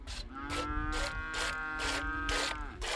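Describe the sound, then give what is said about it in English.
Old heifers mooing in a pasture, one long, low, drawn-out bellow that holds a steady tone for most of its length. “Only a few old heifers remain in the pastures.”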